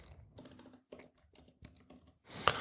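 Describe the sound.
Typing on a computer keyboard while writing show notes: many quick, irregular keystrokes in short bursts, fairly faint, ending with a louder cluster of clacks.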